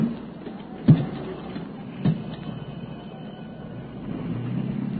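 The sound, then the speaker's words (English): A car engine starts and revs. Two short, loud thumps come first, then a low engine rumble swells and grows steadily louder toward the end. “Well, your motor sounds all right, Stevens.”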